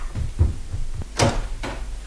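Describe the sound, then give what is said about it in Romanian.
A back door is opened and then closed: a few low wooden thumps and rattles, then a sharp clack. A second, fainter knock follows, with no voices. “Am plecat pe ușa din dos.”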